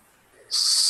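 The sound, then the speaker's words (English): Wind hissing beneath the arch of a ramshackle stone bridge: after a brief quiet moment, a loud, steady, bright hiss sets in abruptly and holds. “Perhaps it was the wind hissing beneath the arch of the ramshackle stone bridge that you're floating beneath.”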